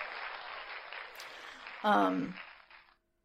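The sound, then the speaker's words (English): A cheering 'yay' button sound effect: a bright wash of crowd-like cheering with a louder voiced shout near the middle, ending abruptly in silence. “Yay button for you.”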